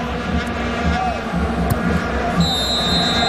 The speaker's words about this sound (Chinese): 这个时候伊尔马托夫吹响了上半场比赛结束的哨音啊！